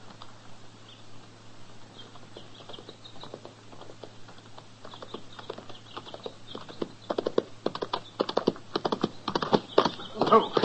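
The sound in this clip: Horses' hooves clip-clopping as riders pass by, a rapid patter of many light hoof strikes that grows louder and denser toward the end over a low steady hum.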